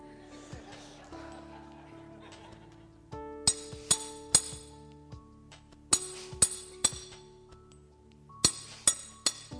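Chisel striking: short bursts of sharp, bright metallic taps, three or four in quick succession, repeat over soft sustained tones. Quieter ticks come before the louder strikes.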